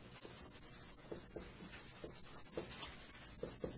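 Writing on a board during a lecture: faint, scratchy strokes and rubs in a short run of separate marks, soft and dry with no voices.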